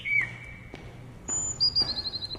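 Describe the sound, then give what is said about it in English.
Caged birds in orb-shaped cages in a castle corridor give a few faint, high whistled chirps, then a quick, repeated trilling call near the end. “In a Hogwarts corridor, two birds perch in orb-shaped cages.”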